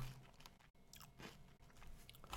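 Crunchy chewing of a spicy snack eaten from a bag: quiet, irregular crisp bites and crunches follow one another, with no talk.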